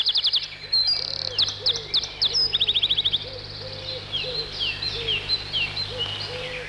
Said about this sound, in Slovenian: je rekel Saško stržek in se postavil na rob gnezda. Potem se je napel in daleč naokrog je zazvenela njegova pesem.